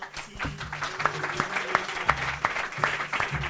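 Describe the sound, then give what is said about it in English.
Audience applause for a comedian at a comedy show, a steady dense wash of clapping hands that keeps an even level throughout. “Put your hands together for Peter Barrera.”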